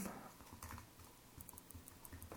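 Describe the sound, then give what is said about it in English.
Faint typing on a computer keyboard, a run of many quick, irregular keystroke clicks at low level. “I'm trying to type this thing while I'm talking at the same time, so forgive me.”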